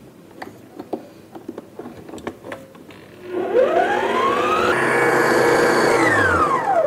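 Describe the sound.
Blender whirs through a dessert mixture with a few drops of lemon juice. A few light clicks and taps come first, then the motor kicks in with a rising whine, holds a steady loud buzz, and dips slightly at the end.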